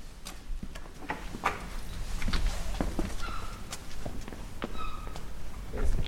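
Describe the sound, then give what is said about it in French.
Footsteps climb two or three steps into the courtyard of a house. The irregular taps and scuffs are fairly faint and sharp against a low background. “Alors là, nous allons pénétrer dans la cour de la maison Pénano. Il y a deux, trois marches.”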